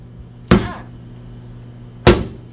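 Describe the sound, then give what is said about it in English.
Something is whacked against a kitchen sink twice: two loud, sharp impacts separated by a pause of about a second and a half, each ringing briefly, over a faint low hum. “Okay, I'm gonna whack it against the sink, okay?”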